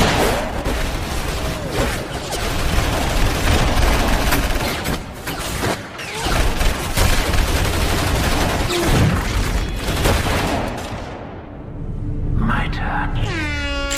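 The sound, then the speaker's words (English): Gunfire from several guns, a dense, loud barrage of overlapping shots that runs almost without a break and eases off near the end. “I would hope that when your guns are empty, I'm no longer standing. Because if I am, you will be dead before you've reloaded. That's impossible. Kill him.”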